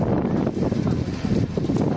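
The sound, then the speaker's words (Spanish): Gusty wind blowing during a wildfire near Burgondo in Ávila, Spain, a dense continuous rush and rumble that swells and dips with the gusts. “Esto que escuchamos, el viento, ha provocado este fin de semana alguna pequeña reproducción del incendio de Burgondo”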